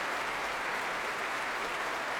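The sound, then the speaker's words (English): Warm applause from a large concert audience at the Royal Albert Hall during a Proms performance with choir and symphony orchestra, an even, dense patter of many hands clapping, fairly soft and sustained without a break. “And being warmly applauded by the very, very fulsome audience here at the Royal Albert Hall.”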